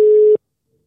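A telephone ringback tone from a call going unanswered: a single steady mid-pitched beep lasting about a third of a second, then abrupt silence.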